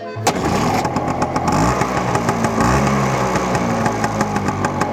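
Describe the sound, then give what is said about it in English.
Vespa scooter engine buzzing loudly at a mid pitch, its tone wavering up and down with throttle changes over a steady rough drone. “That's for real soldiers. We ride at the Vespas.”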